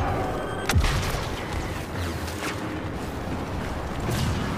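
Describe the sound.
Grenade explosion in the video game Star Wars Battlefront II: a sharp boom bursts out near the start of a dense, continuous wash of rumbling, crackling battle noise that keeps going to the end.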